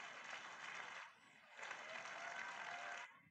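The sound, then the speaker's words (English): A church audience applauds during a worship service, a faint wash of many clapping hands that dips briefly near the middle, swells again, then cuts off just before the end. “Give another round of applause.”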